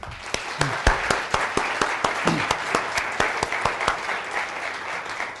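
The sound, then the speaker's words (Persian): Audience applause at a live talk, clapping in rhythmic unison: many sharp, evenly spaced claps at a steady brisk pace for about five seconds. “برایشون دست بزنید”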